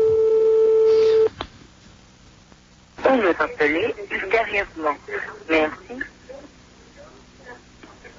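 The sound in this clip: One long steady ringback tone sounds on a telephone line while a caller waits for the call to be answered. A short pause follows, then people talk.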